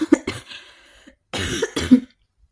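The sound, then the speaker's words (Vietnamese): Dry, raspy coughs from a frail elderly woman, a few short bursts in two clusters separated by a brief pause, moderately loud with no talk. “Bà ho khan mấy tiếng.”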